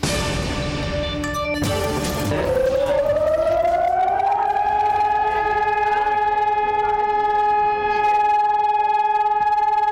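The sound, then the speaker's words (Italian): Air raid sirens sound for Holocaust remembrance in Israel: a loud, sustained wail that rises in pitch over a couple of seconds, then holds a steady, piercing tone with overtones to the end, after a brief mix of other sounds at the start. “Oggi abbiamo deciso di aprire con questi suoni. Sono quelli delle sirene con le quali Israele ricorda la Shoah.”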